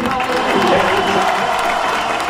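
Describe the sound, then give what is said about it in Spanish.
Audience applause for a guest on a rock music show: steady, dense clapping with some cheering mixed in, loud and continuous for about two seconds. “Un aplauso, gracias al zorro.”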